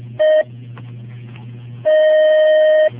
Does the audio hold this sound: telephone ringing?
yes